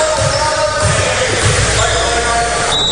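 A basketball dribbled on the court during a high school basketball game, a few low dull thumps set beneath loud, continuous crowd noise.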